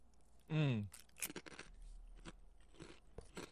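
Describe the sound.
Potato chips fried in sesame oil crunch between the teeth, with crisp, irregular bites and chewing crackles after a brief vocal sound at the start.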